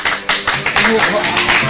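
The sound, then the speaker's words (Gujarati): Applause from a small group honoring a novelist among them, with many sharp claps in a quick, fairly even rhythm and voices mixed in. “ચાલો અમે બધા તમને તાળીઓથી માન આપીએ છીએ.”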